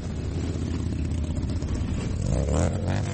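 Thunderous roar of a huge mass of motorcycles riding through Washington, D.C., during a large veterans' motorcycle rally: a dense, continuous low rumble of engines holding steady throughout, with a slight swell toward the end.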